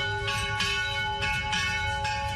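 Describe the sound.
Church bells ring at an Armenian church for a Christmas celebration, several strikes cutting in over sustained, humming bell tones that keep sounding between hits.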